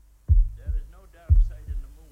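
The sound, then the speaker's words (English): A heartbeat sound effect gives two deep lub-dub beats, each a heavy low thump followed by a softer one, in a steady, even rhythm. “trying to keep your heartbeat at a normal rate here on the evening show”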